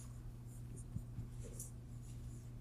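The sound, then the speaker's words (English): Faint pen or marker scratches as notes are written out. A few soft strokes sit over a low steady hum, with no talk. “I'll just write these over here.”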